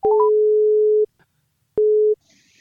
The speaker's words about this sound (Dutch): Ja, we gaan hem eerst eens even bellen.